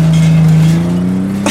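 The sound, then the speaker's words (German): A car drives off with tin cans tied to its bumper. A loud, steady engine drone holds throughout, its pitch creeping upward slightly toward the end. “ließ den Motor an und rauschte mit den klappernden Blechdosen an der Stoßstange davon.”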